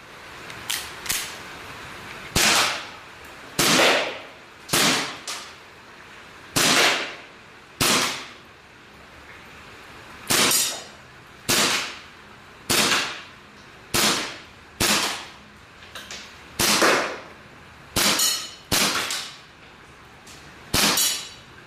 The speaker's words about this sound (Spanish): Así que si quieres una réplica que sea prácticamente como tener una Luger de la Segunda Guerra Mundial en tu casa, esta es una excelente opción. Solo ten en cuenta que cuando la dispares, pues no te va a dar unos resultados excelentes.